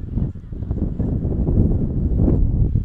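Strong wind blows at an outdoor softball game, a continuous low roaring rumble that buffets the microphone and grows slightly heavier in the second half.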